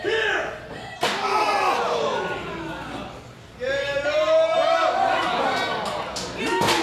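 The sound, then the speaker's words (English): A steel chair striking in a professional wrestling match gives one loud, sharp slam, and a second hit lands near the end. Commentators talk excitedly throughout. “with the steel chair.”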